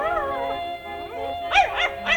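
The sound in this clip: A white poodle whines while being told to dance: high, warbling tonal whimpers that waver up and down, followed by a few short, sharper yelping bursts.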